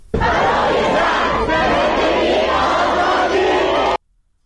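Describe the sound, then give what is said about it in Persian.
Students chant slogans together in a loud crowd at a university protest in Qom, their voices merging into a dense, continuous roar that holds steady for about four seconds and then cuts off. “ویدیویی از دانشگاه قم هم اومده که دانشجویان تجمع کردن و دارن شعار میدن که صدای اونم میشنویم”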